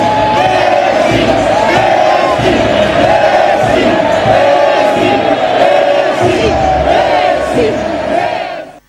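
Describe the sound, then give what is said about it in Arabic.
A stadium crowd chants Lionel Messi's name, with many voices in loud, sustained unison and a steady rhythmic swell that fades out at the very end. “نجم كرة القدم ليونيل ميسي تصدر الترند بتأثره ودمعته هو وعم يسمع هتافات الجماهير يلي نادت باسمه.”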